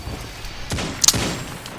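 Gunfire in the video game Destiny 2 during a Control match: a few sharp shots crack close together over a steady background of game noise.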